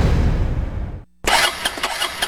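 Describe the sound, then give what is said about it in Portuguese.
A troublesome motorcycle engine cranks and sputters without catching, a run of ragged rumbling, a short dead pause, then another burst of uneven sputtering pulses. “Não acredito não, de novo, no prego! Que isso aí, macho? Essa minha moto só vive no prego.”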